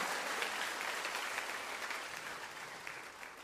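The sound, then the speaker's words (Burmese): Congregation clapping their hands in praise during a church sermon, a dense, steady wash of applause that runs without a break from start to finish and fades slightly toward the end. “ဖခင်ရဲ့မြတ်တာကိုနားလည်သောသူများလက်ခုပ်တီးလက်အားရပါရဖခင်ကိုချီးမွမ်းကြရအောင်”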